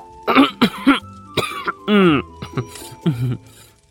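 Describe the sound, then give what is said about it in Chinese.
Harsh, sputtering coughs from people who have choked on tea, the two coughing at once and overlapping in a quick series of loud, irregular bursts. “展昭被茶水呛到的咳嗽声和隔壁白玉堂被茶水呛出的咳嗽声叠在了一起”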